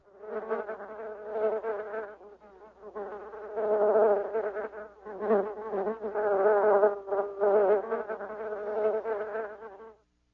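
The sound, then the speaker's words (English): Bees buzz continuously in a loud, wavering drone of several overlapping insects, dipping briefly now and then before cutting off abruptly. “Bees buzz.”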